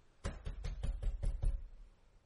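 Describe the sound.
Repeated banging on a door, a quick, even run of hard, dull knocks at a steady rhythm that then stops, with no voices.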